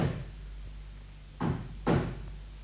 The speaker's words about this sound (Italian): Vado ad aprire. Picchiano.